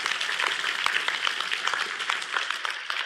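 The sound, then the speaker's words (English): Audience applause in a church service: a dense, even patter of many hands clapping that continues steadily at moderate loudness. “See, Edwin, yeah, give him a great big applause.”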